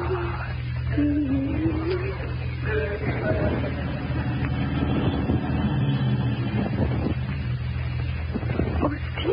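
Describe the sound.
A car drives up with a low, steady engine hum and rumble that runs throughout at moderate loudness.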